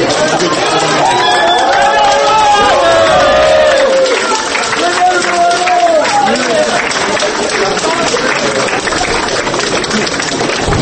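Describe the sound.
Supporters applaud and chatter as a woman is released from a courtroom, a dense, steady wash of clapping mixed with many talking voices that stays loud throughout.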